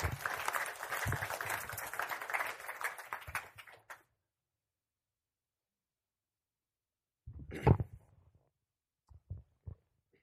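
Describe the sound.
Audience applause welcoming a student speaker at a church testimony event, steady dense clapping for about four seconds that stops abruptly, followed by silence and then a few brief soft sounds.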